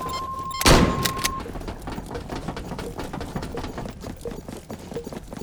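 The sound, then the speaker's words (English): A cabinet door in a video game shuts with a single loud thump, followed by a low, steady background hum. “Close the cabinet. Close the door of the cabinet.”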